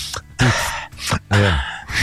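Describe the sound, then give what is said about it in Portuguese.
A person breathing in deeply, a few loud, voiced gasping intakes of breath separated by short pauses, made as a deliberate imitation. “A pessoa respira fundo.”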